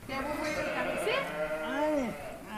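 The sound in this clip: A newborn lamb, born that morning, bleats for its mother in short wavering cries that rise and fall, while people talk over it.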